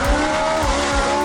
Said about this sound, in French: Une très grosse Ferrari, ça.